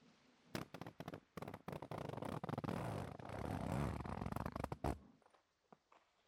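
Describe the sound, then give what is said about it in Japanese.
A zipper is pulled down, giving a quiet, rasping run of rapid clicking teeth that lasts several seconds. Short scratchy bursts come first, then a denser continuous stretch, before it fades into near silence. “それじゃあファスナー下ろすね。”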